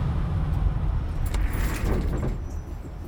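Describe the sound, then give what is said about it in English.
A truck pulls forward onto a weigh scale and its engine is turned off. A low, steady engine rumble runs throughout, easing slightly toward the end. “You, pull forward onto the scale. Yeah, don't set your parking brake. Just leave it in neutral and turn it off.”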